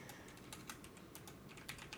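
Someone types on a computer keyboard, producing many quick, light keystroke clicks at an uneven rhythm. The clicks are faint and heard alone.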